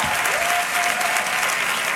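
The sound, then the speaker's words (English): Audience applause for Congresswoman Lauren Underwood, chair of the Black Maternal Health Caucus, at a congressional event: a dense, steady wash of many hands clapping at even loudness throughout. “Give her a big round of applause.”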